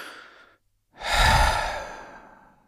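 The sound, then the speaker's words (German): A deep breath: a soft, airy inhale, a brief pause, then a longer, louder, breathy exhale that slowly fades, with no talking. “Endlich mal wieder tief durchatmen.”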